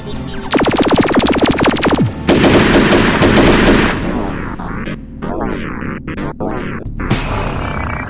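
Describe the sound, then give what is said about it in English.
Blaster fire at security robots: two long, loud volleys of rapid rattling shots, then a run of sweeping zaps and sharp cracks with brief gaps between them. “why did you just blast those security robots?”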